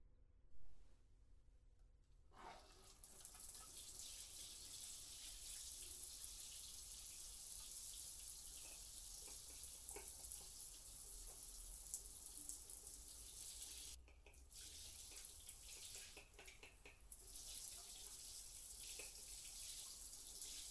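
Water runs for a shower or bath as a steady, loud hiss that starts abruptly after a brief quiet opening and continues with only a couple of short dips.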